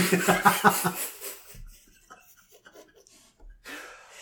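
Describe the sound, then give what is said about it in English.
Deep breathing in and out during a guided breathing exercise for easing frustration: a broad, airy rush of breath at the start, then quieter, softer breaths with short pauses between them. “Deep breath. It'll help with the frustration. In. In again, one more time, once more, and let it end.”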